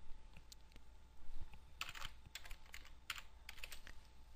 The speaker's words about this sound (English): If this is your first time actually setting up your Respondus for your Blackboard course, then you probably ought to just type in something like this.